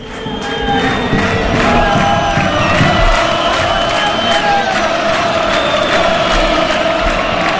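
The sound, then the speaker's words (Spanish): Football stadium crowd in Castellón at half-time as players and referees leave the pitch: a loud, steady roar with whistles and scattered shouts that holds unbroken throughout. “Ya se retiran, parece que sin mayores complicaciones, tanto los futbolistas como el cuerpo arbitral. Así suena Castalia.”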